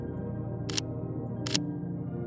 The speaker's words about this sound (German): Auch dieses Bild hältst du mit deiner Kamera fest.